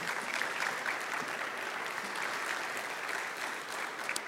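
Church audience applauding as a ministry leader is welcomed onto the stage, a faint but steady, even wash of clapping throughout.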